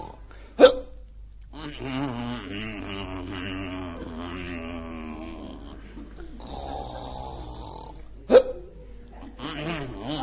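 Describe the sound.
Hiccups: two sharp, abrupt bursts far apart, with low moaning, snore-like vocal sounds droning in the long stretch between them.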